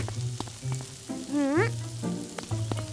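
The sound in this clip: Cauliflower patties fry in a pan with a steady oily sizzle, broken by a few sharp pops and crackles throughout.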